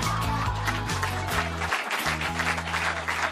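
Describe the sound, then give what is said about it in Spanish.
Audience applause at a stand-up comedy show: dense, steady clapping that holds at an even loudness throughout. “¡Fuerte la aplauso!”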